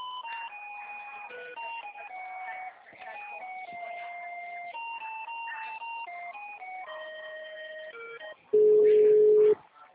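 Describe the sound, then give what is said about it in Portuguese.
During a call transfer to a municipal office, a telephone line plays an electronic melody of shifting beeping tones, then a single loud, steady ringing tone sounds near the end. “Aguarde um momento. Vamos transferir a sua ligação.”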